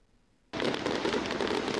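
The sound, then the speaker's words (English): Fireworks exploding at a show burst in abruptly after a quiet moment. A loud, dense barrage of crackles and pops follows and keeps going without a break. “For thousands of people, it is a single night of jaw-dropping explosions.”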